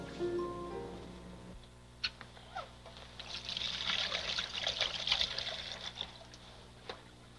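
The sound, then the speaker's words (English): Hands are washed under running water, with a soft, steady trickle and light splashing throughout, faint overall. “Better wash my hands.”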